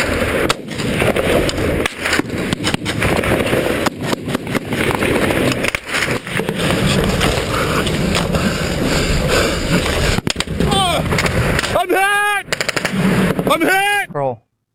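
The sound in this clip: Gunfire rings out in combat footage of a soldier ambushed by the Taliban: many sharp cracks and rapid bursts over continuous noise throughout, with raised voices breaking in near the end.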